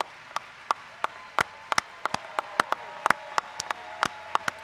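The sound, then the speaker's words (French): An audience rising to applaud: many sharp, irregular hand claps from a small number of people, moderately loud and uneven, with no cheering voices. “L'audience se lève pour acclamer.”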